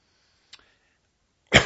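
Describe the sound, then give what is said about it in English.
A single short, sharp cough bursts out after near silence, preceded by a faint tiny click. “Sorry, my wife says make sure when you cough to cover the mic up. The problem is I always remember after I cough, so apologize for that.”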